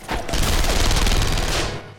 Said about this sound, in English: Gunshots ring out and Faisal's peppered with machine gun bullets fired through the window.